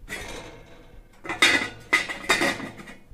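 Kitchen utensils clatter and rattle in a kitchen, with a few sharp, loud metallic clanks standing out above a steady stream of lighter jangling.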